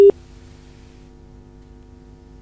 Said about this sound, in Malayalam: Hello, call കട്ടായി എന്ന് തോന്നുന്നു.